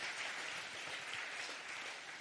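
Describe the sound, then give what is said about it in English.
Faint, dense clapping from a church audience during a bilingual Chinese-English sermon, a continuous wash of many hands with no voices over it. “哎，想拍手，我们就热烈的拍掌，把荣耀归给上帝，好吧？ Give a clap to Jesus.”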